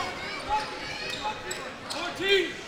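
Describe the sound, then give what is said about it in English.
A basketball is dribbled on a court during a Lakers game, giving faint, regular bounces beneath a commentator's steady talk. “Now pump fakes, dribbles, starts to dribble, and he double dribbled.”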